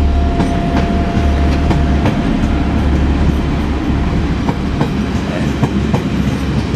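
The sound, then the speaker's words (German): A train bound for Sylt pulls away with a steady, loud low rumble and a light, rhythmic clatter of wheels over the rails, continuous and without any talk. “Ach, das ist der Zug nach Sylt, der jetzt wegfährt.”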